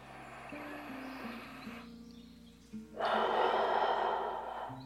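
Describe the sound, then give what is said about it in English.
A deep breath drawn in: a long, breathy rush of air starts partway through and lasts nearly two seconds, heard over soft, steady musical backing. “And now your biggest breath of the day.”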